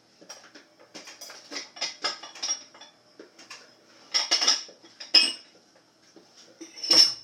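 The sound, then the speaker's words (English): Food is dumped into a pan and spread evenly across the bottom, with a series of light metallic clinks and scrapes of a utensil against cookware, several sharp ringing taps standing out over quieter rattling. “dump this into the pan. Try to dump it in such a way that it will be even across the bottom.”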